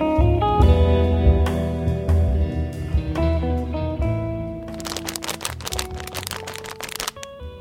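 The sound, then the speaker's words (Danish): Crinkly rustling of a plastic snack bag of cinnamon puffs, a dense burst of crackles in the second half, heard over steady sustained tones that run through the whole clip. “Det er lyden af en kanelgiflepose.”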